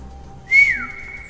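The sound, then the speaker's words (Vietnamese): A man whistles a single short note through pursed lips: a high, clear tone that swells briefly, then bends and fades away, with no other sounds around it. “Y chúm miệng huýt sáo một tiếng”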